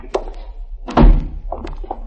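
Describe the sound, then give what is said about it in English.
A door is shut with a single solid, heavy thunk midway, set off by a light tap before it and softer clattering knocks after, late at night. “I got to close the door.”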